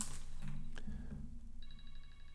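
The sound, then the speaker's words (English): A mobile phone rings partway through, a pulsing electronic ringtone of short repeated high beeps over a steady low background hum. “My phone was ringing there, so there was obviously an edit.”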